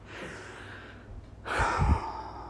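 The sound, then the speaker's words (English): A long, deep breath taken during a guided breathing exercise: a soft, drawn-out inhale, then a louder, breathy exhale. The breathing is faint and heard alone. “one more long deep breath.”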